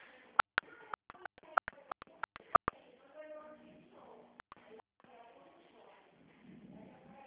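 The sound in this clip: Telephone keypad tones punch in an ID number for an automated phone line. Many short, sharp beeps come in a quick run, then a few more follow, with faint speech-like sounds between the bursts.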